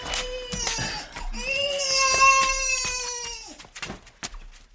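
An infant cries with one long, loud wail in the middle, framed by shorter whimpering sobs and fainter fussing toward the end.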